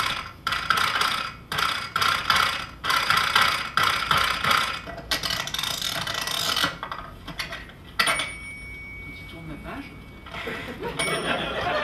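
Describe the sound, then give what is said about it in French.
Typewriter clatter: bursts of rapid mechanical keystrokes in uneven groups, then a longer continuous grinding stretch and a few sparse, sharper strikes toward the end. “Machine à écrire.”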